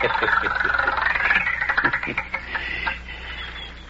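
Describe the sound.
A numbered wheel spinning: its pointer ticks rapidly at first, then the clicks grow spaced out and fainter as the wheel slows toward a stop.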